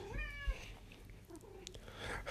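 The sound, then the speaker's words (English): A pet cat gives a single short, rising-then-falling meow, faint and brief, followed by quiet background noise. “Even my cat agrees.”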